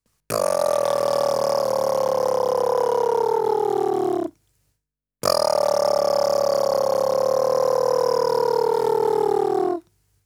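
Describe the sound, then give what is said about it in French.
Lip buzzing as a breathing exercise for didgeridoo practice: two long, rich buzzing tones of about four seconds each, separated by a short pause. Each tone sinks slightly in pitch as it goes, with no talk. “Faisons maintenant le même exercice que précédemment en utilisant le bourdonnement des lèvres.”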